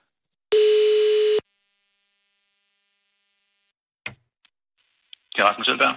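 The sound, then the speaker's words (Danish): Ringing tone of a phone call to a school: one steady, buzzing tone sounds once, then a few clicks and a voice answering. “Og så ringede jeg så til det der skole og forældre.”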